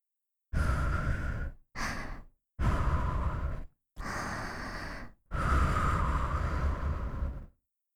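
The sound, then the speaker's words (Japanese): Breath blown out in five long, airy puffs, each a breathy rush of air with short silent pauses between. The second puff is much shorter than the rest, and the sound is clear and close with no talk. “その前に、まずは息を吹きかけてみましょう。”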